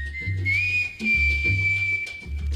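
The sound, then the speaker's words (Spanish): A whistled mambo tune holds a bright, sustained high note that steps up slightly, over a steady, pulsing low bass rhythm. “Hay un mambo del silbido, vamos a escucharlo”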